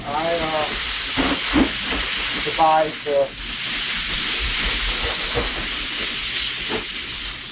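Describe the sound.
Water is sprayed onto a hot grill with meat cooking over high flames, setting off a loud, continuous steam hiss and sizzle, with a voice briefly heard near the start.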